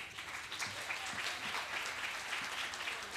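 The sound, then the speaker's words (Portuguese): Applause from an audience at a poetry event as a poet is called to the stage: a fairly faint, dense, continuous clatter of many hands clapping at a steady level, with no speech over it. “palmas para o poeta.”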